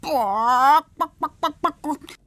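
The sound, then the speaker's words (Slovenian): A hen clucks: one long drawn-out call that rises slightly in pitch, then a quick run of short, clipped clucks. “Слухајшо. Кокош Катарина.”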